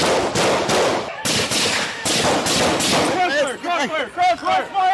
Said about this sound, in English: Crossfire! Crossfire! Shots fired! Shots fired!